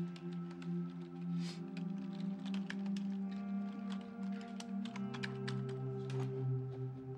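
Typing on a computer keyboard at home, many quick, irregular light key clicks going on steadily over a constant low tonal hum, with no talking.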